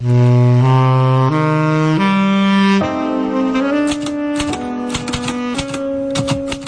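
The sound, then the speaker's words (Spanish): A typewriter clacks in a quick, irregular rhythm from partway through to the end, under sustained saxophone notes that step through a few pitches. “se vuelca sobre su máquina de escribir. Empieza a teclear buscando una forma original de presentar su programa, un programa de cine.”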